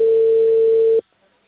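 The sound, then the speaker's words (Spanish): A telephone tone sounds as the call line is cut off: a single steady, pure, mid-pitched beep holds for about a second, then drops into sudden quiet. “Corta su línea. Disculpe, pero se corta la comunicación.”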